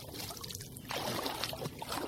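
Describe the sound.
Water splashing and sloshing during a cold-water swim: a continuous, fairly soft churn of trickling and lapping water with no sharply separated splashes.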